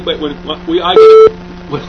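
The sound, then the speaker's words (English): A telephone beep on a line the caller suspects is tapped: one solid, steady mid-pitched tone lasting about a quarter second, set between stretches of a man's speech. “when I heard that again. Yeah, when I get a call, it's two intonations, you know, and it's not just that one solid beep.”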